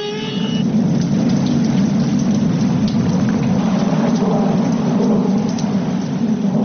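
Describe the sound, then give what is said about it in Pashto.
A dangerous rainstorm pours down in a loud, continuous hiss of heavy rain, with a low rolling rumble of thunder underneath throughout and no voices. “په لنډو ورځو کې یو خطرناک باران را روان دی.”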